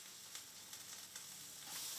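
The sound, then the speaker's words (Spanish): Taiwanese oyster omelette frying, fresh oysters mixed with rice flour, herbs and egg, giving a soft, steady sizzle with a few faint crackles that swells slightly near the end. “Hoy prepara una tortilla de ostras, uno de los platos nacionales de Taiwán. Un puñado de ostras frescas con harina de arroz, hierbas y huevo.”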